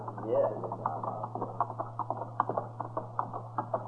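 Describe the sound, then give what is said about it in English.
Horses' hooves clip-clop as riders set off on horseback for a long ride, a steady run of many soft, even hoof beats over a constant low hum. “Well, they can't be taking the stage if they're horseback. No. Looks to me like they're fixed for a long ride, too.”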